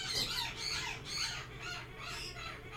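Pet birds squawking, a run of harsh, shrill calls repeating through the whole stretch at fairly even strength, with no talking over them.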